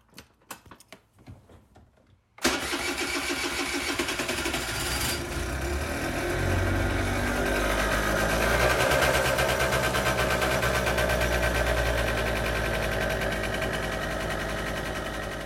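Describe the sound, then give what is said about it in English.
A Vespa scooter engine starts after a few light clicks and rattles. It settles into a steady, buzzing idle with a faint rhythmic clatter that continues to the end. “This sound brings me back to my days of visiting Italy and hearing the Vespas driving around, and it makes me happy to get back on it because it means that summer is almost here”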